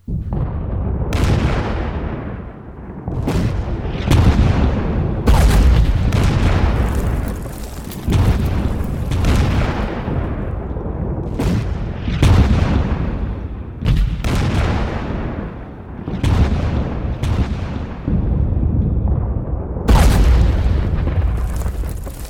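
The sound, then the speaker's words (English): Naval guns bombarding Sedd El Bahr and the villages around a landing beach: many heavy, deep booms in irregular succession over a continuous low rumble, loud throughout, with no voices. “This morning opened with a thunderous rage of naval guns bombarding Sedd El Bahr and the villages surrounding landing site V to hell.”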